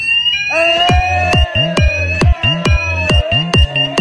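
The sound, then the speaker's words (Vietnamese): Fire alarm ringing loudly: a steady high tone runs under a fast series of about eight sharp, falling pulses that repeat at an even rhythm. “Ôi, quả nhạc báo cháy lên mic ok quá nhỉ. Đi mic được quá nhỉ.”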